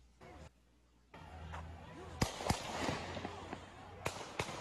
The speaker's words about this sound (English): Those shots, I have no idea where they're coming from. Don't know if they're coming at him. Someone's popping off.